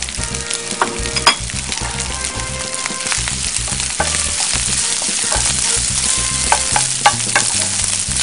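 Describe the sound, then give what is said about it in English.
Rice frying and being stirred in a hot oiled pan, a loud, steady sizzle that fills the whole stretch with scattered crackles and spits, no voices. “Now I'm going to add my rice.”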